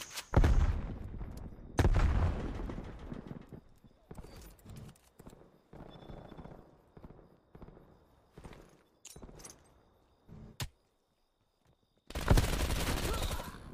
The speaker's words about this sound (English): Why am I burst shooting this? QBZ is fully automatic, right? Yep. Okay. Don't know why I'm bursting it.